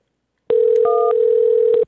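Telephone keypad tones while dialing a technical support line: a steady, loud dial-style tone runs throughout, with one brief higher two-note keypad beep layered partway through and a few soft clicks.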